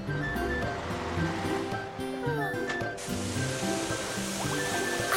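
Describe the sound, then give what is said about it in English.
Water rushes steadily while someone washes up in a garage after a day of work. The noise is continuous and moderately loud, with no clear breaks. “I'm tired. I think I'll wash up and rest.”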